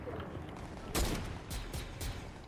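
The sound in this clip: Gunfire in the video game Fortnite: a few sharp bursts of shots over a steady background noise, with no talking.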